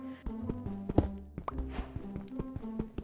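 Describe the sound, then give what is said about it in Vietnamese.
Stone being broken on a hill in a video game: many sharp, hollow thwacks and thunks land in an irregular rhythm over a faint, steady tonal background. “Bước tiếp theo là đi tìm một ngọn đồi và bắt đầu đập đá.”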